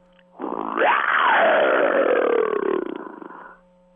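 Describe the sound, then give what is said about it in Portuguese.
A lion roar plays as an answering-machine greeting: one long, deep, throaty call that swells quickly, rises in pitch, then slides downward over about three seconds before cutting off, with a thin, tinny quality and no voices. “Deixe o seu recado após o rugido.”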